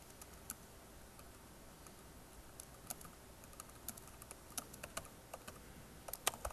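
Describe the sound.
Computer keyboard typing: many light, irregular key clicks at a quiet, steady level, with a few sharper taps near the end and no voices.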